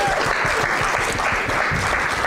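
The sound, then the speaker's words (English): A church audience applauds to welcome two pastors onto the platform, a steady, dense wash of clapping hands that holds at an even level for the whole stretch, with no voices breaking through. “Let's give them a clap.”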